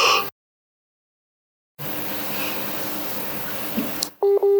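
Telephone tones while a call reconnects: the line drops into sudden silence, returns as steady hissing noise, then ends with a brief pair of clean electronic beeps.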